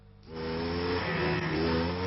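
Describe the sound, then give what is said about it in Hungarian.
A steady engine drone from an East German MZ motorcycle starts abruptly after a brief quiet moment and then holds a continuous, even mid-pitched hum with no clear revving. “Szabadság keleti módra. Ez volt a legendás kelet-német MZ. Olcsó volt és megbízható, ami nagyon népszerűvé tette.”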